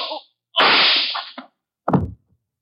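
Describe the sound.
Gunshot sound effects in a radio drama: a few sharp, loud cracks, each trailing off in a short, noisy decay, separated by brief gaps of silence, with no voices heard.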